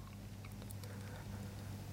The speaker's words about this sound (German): hört nur das Schmatzen der Wellen.